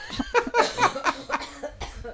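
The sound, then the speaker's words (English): Coughing after inhaling saliva, several sharp, moderately loud coughs in an uneven rhythm that grow weaker toward the end. “I went to talk and I inhaled saliva. Inhaled phlegm? Yes.”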